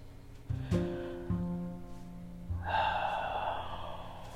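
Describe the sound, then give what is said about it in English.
A slow, deep breath drawn in during a guided meditation, a soft airy inhale lasting nearly two seconds that follows a few gentle, sustained musical tones. “Breathe in all the prosperity the universe offers.”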